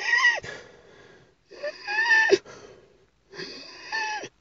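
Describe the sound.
A voice imitates wheezing breath during a relapse of breathing trouble. There are three strained, whistly, high-pitched wheezing breaths separated by short silences, fairly faint and with no talk.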